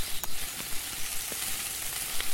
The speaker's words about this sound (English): What you're listening for is the sound of the rabbit being done, and that's when you want to stop hitting space